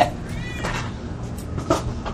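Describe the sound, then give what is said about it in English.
A house cat meows: short, thin calls with a bending pitch, heard over a steady low background murmur. “Oh, there's your cat.”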